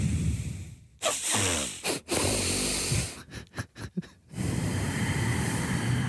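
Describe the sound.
Nasal breathing exercise: quick sniffing inhales and a longer exhale, all through the nose. Loud, airy, hissing breaths alternate with brief gaps and a rapid flurry of short sniffs, with no talk.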